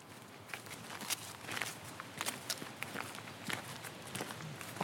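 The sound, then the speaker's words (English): Footsteps walking down a garden path toward a Gothic temple in a landscape garden, a steady series of soft, fairly quiet steps over faint outdoor background noise. “So now we are walking down towards the Gothic Temple”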